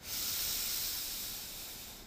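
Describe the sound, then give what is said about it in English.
A deep inhale during a guided breathing exercise, heard as one long, soft, airy hiss of drawn breath, steady for about two seconds before tapering slightly. “We're going to do one more together. Inhale in.”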